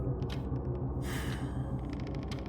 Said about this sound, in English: Takes a deep breath.